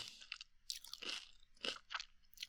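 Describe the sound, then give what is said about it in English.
Crisp crunching and chewing of spicy rice crackers: a rapid series of dry, brittle crunches with short gaps between bites, close and fairly loud, with no talking. “eat the rest of my snacky snack in your ear. They're so good. These ones are absolutely delicious.”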